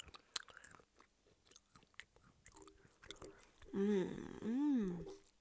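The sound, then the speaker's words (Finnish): Crunching and chewing of caramelized cashew nuts, with a few sharp crisp bites followed by a longer vocal sound near the end. “Saanko tarjota sinulle karamellisoituja cashew-pähkinöitä? Ota siitä. Itsekin maistan.”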